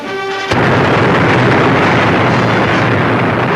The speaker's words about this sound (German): If the enemy dares to employ gas, they will find our army more than ready to match their strength with the latest weapons and plenty of them, such as this 25-shell battery.